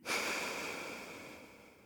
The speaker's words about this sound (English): we breathe in, and then we take a long breath out. So breathe in, and breathe out.